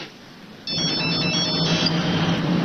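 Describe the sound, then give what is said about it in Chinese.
A telephone ringtone sounds on an outgoing call, cutting in abruptly after half a second of near silence and then continuing as a steady, bright, warbling tone to the end. “我给常贵打个电话。 你用这个打。”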